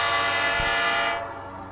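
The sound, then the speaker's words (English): A P5 five-chime locomotive horn sounds on a passing Saratoga North Creek train, number 518: one loud, sustained, rich chord that holds steady and then drops away in volume after about a second. “A P5 horn.”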